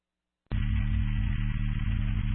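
Air conditioner humming, a loud, steady low drone that cuts in abruptly after a short silence and holds unchanged to the end.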